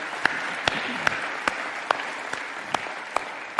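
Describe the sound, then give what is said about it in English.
Applause at a church service welcoming first-time guests: continuous clapping from the audience, with a steady beat of sharp, evenly spaced claps standing out above the wash of hands. “Can we put our hands together and welcome our first-time guest today?”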